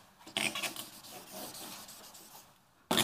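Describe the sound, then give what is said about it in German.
A picture is drawn during an onstage talk at a congress: scratchy, rubbing pen strokes come in short bursts, with a quieter stretch before a fresh stroke at the end. “So, ich zeichne aber mal das, was hindert.”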